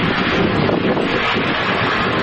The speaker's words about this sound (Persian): این صدای گرد و خاک خوزستان ملت، این میره تو ریه